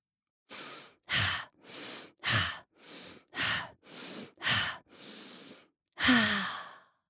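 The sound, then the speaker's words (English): Deep breathing: five slow breaths in and out, heard as ten soft, airy bursts in a steady, even rhythm with brief pauses between, the final breath the longest and loudest. No voices. “Breathe 5 times.”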